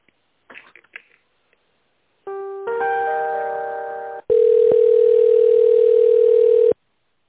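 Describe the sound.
A telephone line tone plays while a call is being transferred. A few soft clicks come first, then a layered multi-pitch tone, and then a long, loud, steady single tone.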